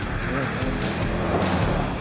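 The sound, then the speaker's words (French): Loud, steady engine and road noise from a Peugeot 206 Super Coupe Group A rally car with a tuned 1.6-litre engine of 150 hp and rally suspension, as it spins out, holding a continuous roar throughout. “Eh oui, premier tête à queue.”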